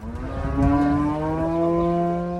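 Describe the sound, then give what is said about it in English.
Cattle mooing near a house: a single long, low bellow with a rich, even tone that holds for the whole clip, loud and alone. “Their cows are close by.”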